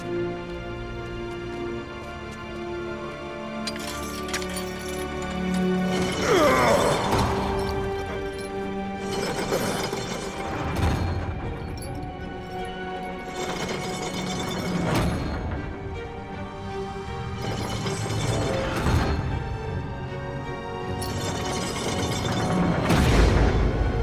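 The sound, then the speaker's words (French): Heavy chains being pulled, producing several loud crashing clanks spread over the stretch, over a sustained tonal drone. “tire sur ces chaînes.”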